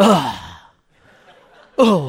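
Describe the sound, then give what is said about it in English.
A person groaning in two drawn-out voiced groans, the first sliding downward and fading, the second starting abruptly after a quiet pause of about a second. “That is groaning.”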